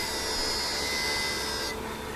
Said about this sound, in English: At Szymanski's, one of Cape Town's most prominent jewelers, many customers drop by to watch diamonds cut to size on spinning machines, then polished to a gleam on grinding wheels.